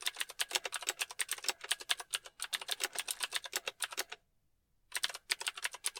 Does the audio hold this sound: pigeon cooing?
no

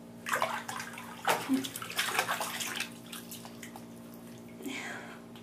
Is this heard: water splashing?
yes

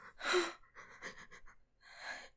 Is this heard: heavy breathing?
yes

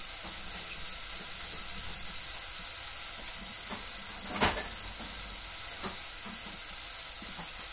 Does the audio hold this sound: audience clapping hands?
no

